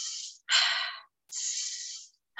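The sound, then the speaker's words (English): Deep breathing with slow inhales and exhales: a few long, airy breaths separated by brief pauses, soft and with no talk. “so I'm really intentional on the depth that I'm actually inhaling and exhaling, but I did speed it up a bit.”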